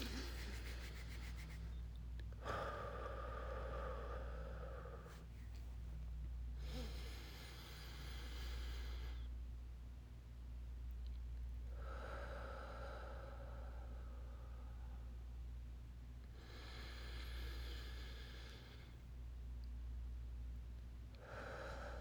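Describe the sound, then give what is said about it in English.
Slow, deep breaths taken during a calming exercise, a few faint airy swells with pauses between them, set over a steady low hum. “Take a few deep breaths. Let's do this, okay?”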